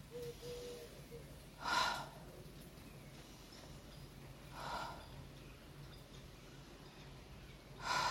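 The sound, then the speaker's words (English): Slow, deep breaths are taken during a guided relaxation exercise: three soft, airy bursts of inhaling and exhaling, spaced a few seconds apart, over a faint steady background. “Let's take three nice deep inhales and exhales now.”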